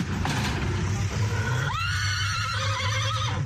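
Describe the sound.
A horse at a gathering of riders from Erbil and Garmiyan near Chamchamal lets out a single long, loud whinny with bright harmonics in the second half, over a steady low rumble.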